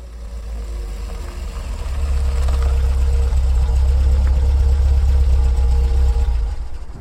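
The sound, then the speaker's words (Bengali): A car pulls up and its engine idles: a steady, low, throbbing rumble that grows louder after the first couple of seconds and then holds evenly, with no talk. “এই তো তোমার গাড়ি এসে গেছে।”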